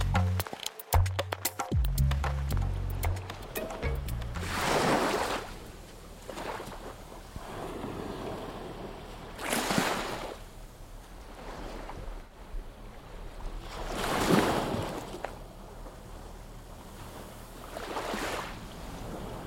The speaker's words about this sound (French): Aujourd'hui, on est au bord de la mer.